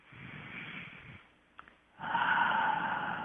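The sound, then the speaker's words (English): A deep breath drawn during a guided meditation seminar: two long, soft, breathy rushes of air with a short pause between them, the second one louder and fuller. “So let's take a deep breath”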